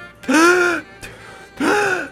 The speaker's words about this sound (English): I'm gasping for air.